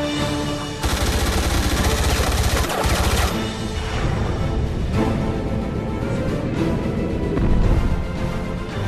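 Gunfire from a running gun battle in a film: dense, loud volleys of shots and crashing impacts that keep up steadily for several seconds with a brief lull, and no speech.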